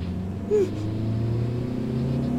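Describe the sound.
Low, steady engine rumble of a van driving off, a continuous deep drone with a faint humming tone riding on top and one brief bump early on.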